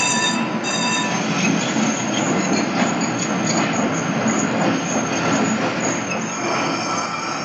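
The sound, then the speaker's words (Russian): A tram pulls in to a stop, giving a steady, loud rail rumble with high, thin wheel squeal running throughout and no voices. “К остановке подходит трамвай.”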